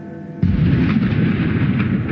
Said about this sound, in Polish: Wystrzały armatnie